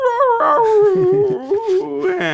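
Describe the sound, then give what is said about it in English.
A dog howling in long, wavering cries that shift up and down in pitch. The howl breaks into several strained, whimpering wails before rising again at the end. “That was the dog howling for the dead.”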